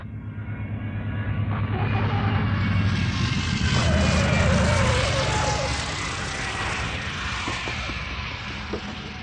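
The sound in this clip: A flying boat aircraft comes in to land, its engines a steady, broad droning roar that swells slightly toward the middle and eases off gradually toward the end.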